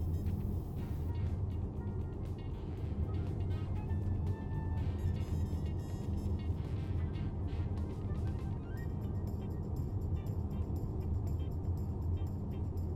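A car being driven, its low engine and road rumble steady and continuous throughout with a faint higher hiss above, no talk.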